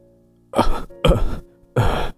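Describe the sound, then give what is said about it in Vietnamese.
An old woman coughs in a choking fit that brings fluid up through her nose and mouth: three harsh, evenly spaced bursts, each lasting about a third of a second, with no talk. “Bà cứ sau một cơn ho thì nước trong mũi miệng trào hết ra ngoài.”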